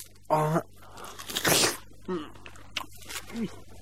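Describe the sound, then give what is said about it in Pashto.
A melon being bitten and chewed: one loud, crisp crunch near the middle, surrounded by brief voiced murmurs and softer mouth and chewing noises. “ته واخله دا خټکی وخوره چې د ژوند په خوند پوه شې وروره. داسې خټکی به دې په ټول عمر کې هم نه وي خوړلی.”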